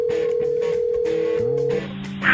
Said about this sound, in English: Let's check Adam's voicemail.